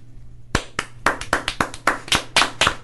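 Applause for a child's answer during a morning TV show: a steady series of sharp, loud hand claps in an even rhythm, heard alone over a faint low hum.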